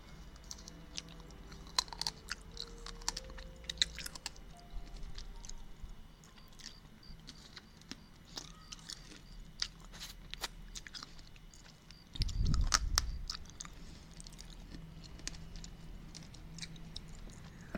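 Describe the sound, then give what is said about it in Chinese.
Crunchy chewing of pickled sour radish: many quiet, crisp crackles and clicks in an irregular rhythm, with one brief low rumble near the end. “酸萝卜的声音”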